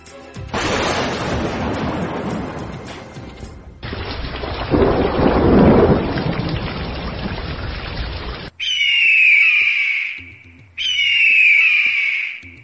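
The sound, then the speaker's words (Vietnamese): Thunder rumbles across the sky in two long, loud rolling peals, one after the other. Two short, high hooting bird calls follow them. “Sét đánh ầm ầm trên trời.”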